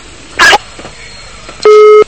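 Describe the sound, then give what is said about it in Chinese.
A phone call line drops with a single steady electronic disconnect beep, a flat mid-pitched tone lasting under half a second, preceded by a brief harsh burst of noise. “电话跳掉了”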